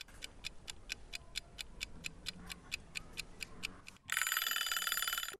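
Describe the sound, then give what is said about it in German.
A classroom timer ticks while counting down to the next airing of the windows. About fourteen quick, even ticks run at a steady rhythm, then a loud, bright electronic ringing breaks in and holds for over a second. “Jetzt läuft die Zeit bis zum nächsten Lüften. Wollt ihr mal lauschen, wie das so klingt?”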